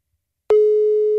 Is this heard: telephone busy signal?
yes

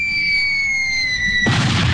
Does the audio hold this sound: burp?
no

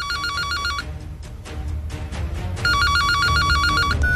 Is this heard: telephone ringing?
yes

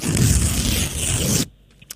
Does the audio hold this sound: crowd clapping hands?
no

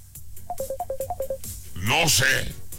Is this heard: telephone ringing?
yes

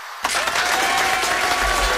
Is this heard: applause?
yes

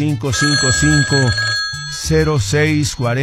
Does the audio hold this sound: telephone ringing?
yes

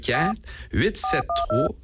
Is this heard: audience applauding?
no

